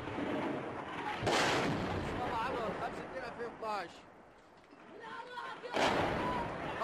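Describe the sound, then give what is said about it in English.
Heavy artillery fire on the streets of Homs, Syria: two loud, broad blasts, one early and one near the end, stand out above a constant rumbling background. “Forces loyal to Syrian President Bashar al-Assad have launched one of the fiercest attacks yet on the city. Round after round of heavy artillery fire being reported by our partner, the BBC.”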